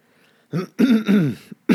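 Throat clearing from someone with something stuck in the throat: a few rough, voiced bursts of hacking and rasping, with short gaps between them and a brief final burst, heard alone without talk.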